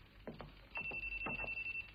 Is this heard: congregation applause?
no